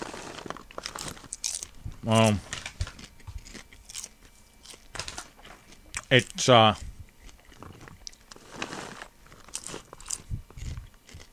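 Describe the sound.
Crunchy chewing as food is tasted for its pepper flavor: loud, crisp bites come in two bursts, with softer chewing and talk between them.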